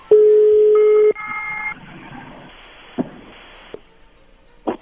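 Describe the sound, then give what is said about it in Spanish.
A telephone is being dialed to place a call: a long, steady, loud tone gives way to higher paired dialing tones, followed by a few brief clicks over a low hum. “pues vamos a llamarle a Cintia”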